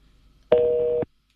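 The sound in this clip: A single telephone busy-signal tone on a radio call-in line: one steady, mid-pitched beep lasting about half a second, heard alone with an abrupt start and stop.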